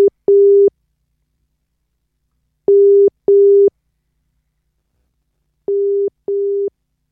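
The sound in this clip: A telephone call is being dialled, and its ringing tone repeats as paired bursts of a steady mid-pitched tone. Each double ring is followed by about two seconds of silence. The tone is loud and clear, with no voices.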